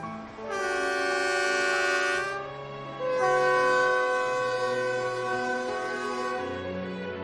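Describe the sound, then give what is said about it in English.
A train whistle on a railway through a forest in China's far north sounds in two loud, sustained harmonic blasts, the second longer than the first. “Some people say the train whistle is the sound men are most eager to hear”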